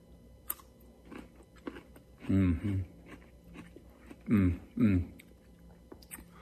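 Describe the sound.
Chewing on an aged, shrunken pickle that has lost its firmness gives four wet, crunchy bites in two close pairs, loud against a quiet, low background.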